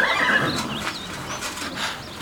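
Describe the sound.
A horse whinnies in its stable, a brief wavering high-pitched call rising out of steady, fairly hushed background noise.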